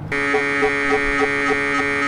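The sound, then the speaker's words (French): Electronic hum of an XV5800 CT scanner running as a sound effect, a steady buzzing drone with rich harmonics and soft regular throbs pulsing through it. “préparez-moi le tomodensitomètre XV5800 à clé polyphonique digitale. Hein? Le scanner.”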